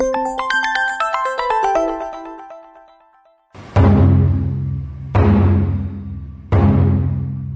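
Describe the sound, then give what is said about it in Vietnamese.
School drum beating to mark the first day of school: three loud, booming strikes, each with a long ringing decay, follow a bright melodic electronic chime. “Dạ có anh ơi, em vừa nghe thấy tiếng trống trường rộn rã.”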